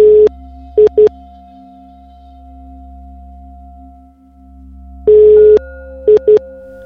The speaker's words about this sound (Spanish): Te está entrando una llamada